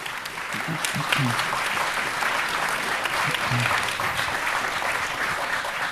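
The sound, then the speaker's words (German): An audience applauds at a stage event, with steady, dense clapping that holds at an even level for the whole stretch and faint voices mixed in beneath it. “Also gut, ein Applaus für Twi.”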